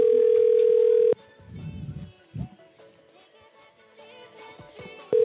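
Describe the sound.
Telephone ringing tone on an outgoing call: a steady mid-pitched tone holds for about a second, gives way to a long pause with faint muffled sounds, then starts again at the very end.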